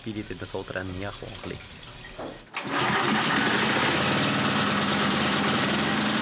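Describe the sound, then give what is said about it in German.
A two-stroke generator drones in a barn, a loud, dense, steady roar that cuts in abruptly after a voice speaks and then runs on unchanged. “Heute macht der Generator die Musik im Stall. Im dröhnenden Zweitakt.”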